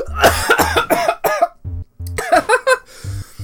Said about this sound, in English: Oh, I inhaled so hard I almost aspirated myself to death.